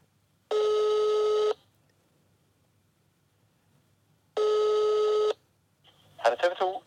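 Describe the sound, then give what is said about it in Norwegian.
A telephone call to a TV news tip line: two long, steady electronic ring tones about four seconds apart, then a brief voice answers. “Så jeg har et tips, så da skal jeg ringe til TV 2.”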